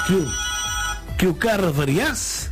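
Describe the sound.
A telephone rings as a caller is taken on a radio call-in show, a steady electronic ring tone heard under lively talk from voices in the studio.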